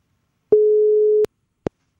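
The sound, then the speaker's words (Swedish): Telephone ringback tone on a call waiting to be answered: one steady, mid-pitched tone held for about three quarters of a second, cut off by a sharp click, followed after a pause by a short, clipped blip. No voices. “Och då är det ju så att vi använder oss av telefon. Och så hoppas vi att samtalet kopplar upp och att det är någon som svarar.”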